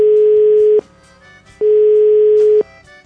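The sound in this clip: Ringback tone of a telephone call being dialed: two long, steady beeps of even pitch separated by a pause, over a faint background.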